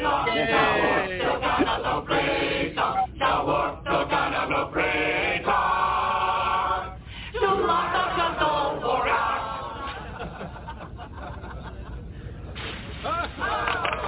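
Comedic intro music plays from an iPad, dense and slightly thin in tone, with sung vocals over busy accompaniment. It runs continuously with a brief dip partway through.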